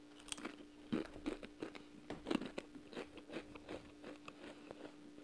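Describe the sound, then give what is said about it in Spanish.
Crunchy Doritos corn tortilla chips being chewed: many quiet, crisp crunches and bites in an uneven rhythm, with no talk and a faint steady hum underneath. “Ya me di cuenta porque no estoy comiendo mientras hablo porque no sé masticar y me tardo burda.”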